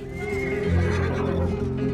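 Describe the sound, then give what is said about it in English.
A wild horse neighs loudly in a film scene about prisoners breaking wild horses, a sustained, harmonic whinny over a deep low rumble that fills the whole stretch. “That's a dangerous animal. If you can stay in there for more than 5 seconds, you're in the program. Nice boots. The whole purpose is to learn how to break these wild horses.”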